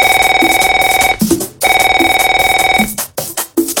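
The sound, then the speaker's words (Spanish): A telephone rings loudly during a call attempt, two long electronic rings with a rapid trilling pulse separated by a short gap, then a few briefer bursts. “Ponga la llamada, por favor. Le voy a llamar al David DJ.”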